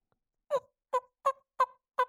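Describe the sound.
Soft turkey hen yelps made with a hand-held turkey call: five short, clear notes spaced evenly apart, alone with no other sound.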